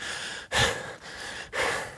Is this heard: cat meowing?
no